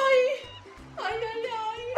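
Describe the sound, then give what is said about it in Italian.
A small dog whimpers and yips in a few high, whining cries with short pauses between them, the last one rising sharply at the end. “Ehi, attenta al cane”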